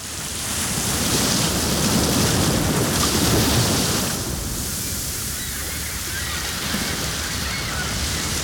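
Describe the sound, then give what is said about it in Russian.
Gentle sea waves splash and wash in a steady, hissing surge. The sound is fuller for the first few seconds, then settles into a softer, continuous lapping. “Вы слушаете приятный, ласковый, расслабляющий плеск волн морей Арафурского, Альборан, Банда, Висаян, Камотес,”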